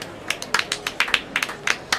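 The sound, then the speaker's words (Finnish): Scattered applause from a small audience at a stage show during a Christmas party event: a dozen or so sparse, irregular sharp claps. “Joten annetaanpa vielä pienet aplodit Simbeliukselle, Pambeliukselle ja Jymbeliukselle.”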